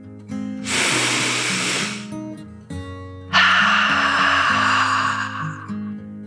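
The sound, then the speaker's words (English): A deep breath in and out over gentle sustained music. A long airy inhale is followed after a pause by a longer, louder breathy exhale that slowly fades. “He decided to take a deep dragon breath in and out.”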